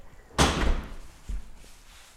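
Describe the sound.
A dishwasher door is shut in a home kitchen, giving a firm thump followed by a second, softer knock about a second later. Faint background sound fills the rest.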